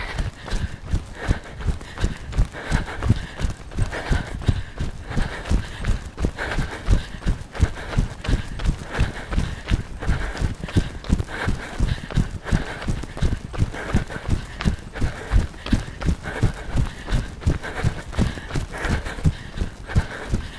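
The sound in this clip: Running footsteps during an interval run: a steady, quick rhythm of many even footfalls continuing unbroken throughout, each a soft thud at a constant pace, with no talking.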